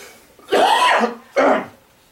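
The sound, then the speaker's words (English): Two harsh bursts of a real human cough, one longer followed by a shorter one, loud and alone with no talk. “That was a real cough, by the way, but it was at the right time.”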